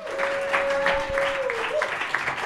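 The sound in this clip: Audience applause for two guests introduced on stage at a live comedy event: steady, moderately loud clapping runs throughout, without a clear break.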